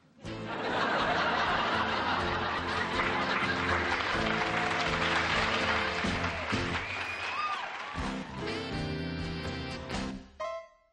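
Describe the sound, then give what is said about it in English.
A studio audience applauds loudly and steadily, with boisterous whoops, hollers and high whistles rising above the clapping, which keeps up throughout before breaking off near the end. “the audience really liked that show because there are some very boisterous whoops and hollers coming from there.”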